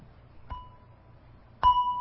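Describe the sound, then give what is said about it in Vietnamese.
Two strikes on a Buddhist temple bell with a mallet, the gentle waking strokes before the main ringing. The first strike is soft with a thin sustained tone; the second is louder, ringing with a clear bright hum. “Trước khi mình thỉnh chuông á, là mình phải cầm cái dùi lên và mình thức cái chuông 2 cái trước.”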